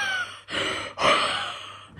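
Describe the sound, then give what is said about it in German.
A dog breathing oddly and raspily while dreaming, a few airy, rough breaths that swell and fade in a steady rhythm, with no talk over them. “der Hund schnarcht gerade. Der träumt total. Aber der schnarcht nicht, der atmet ganz komisch.”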